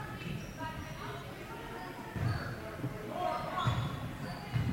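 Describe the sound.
Basketball bounces on a court as a player dribbles during a women's game: a few dull, low thuds spaced unevenly under continuous commentary.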